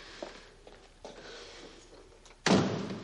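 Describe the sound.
A door is closed with a single loud, sharp thud near the end, after a few faint soft knocks or steps.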